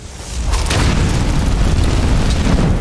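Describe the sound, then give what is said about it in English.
A flame attack in a video game: a deep, roaring burst of fire that swells quickly and then sustains as a loud, rumbling rush with no break. “Let's go back to fire. Flames. We'll go back to flames.”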